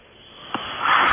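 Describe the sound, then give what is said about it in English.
Heavy breathing from a caller on a phone line during a call-in show, thin and band-limited: a quiet, rising breathy hiss with a brief sniff partway, swelling louder toward the end. “And a lot of breathing there.”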